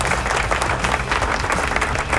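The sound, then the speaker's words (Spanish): Applause from a crowd at a rock show in San Juan, Puerto Rico: dense, continuous clapping at an even, fairly loud level from start to finish, with no talk over it. “Aplausos, ¿dónde están los aplausos? Suenan los aplausos, ahí están los aplausos.”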